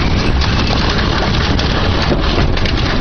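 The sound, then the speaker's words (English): Rain and wind in a storm violent enough to blow roofing off buildings, heard as a dense, loud and unbroken roar with no pauses. “that's the rain and the breeze.”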